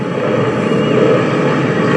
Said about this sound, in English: Endeavour rolling out on runway 15 of the Kennedy Space Center, wrapping up a 6.5 million mile mission.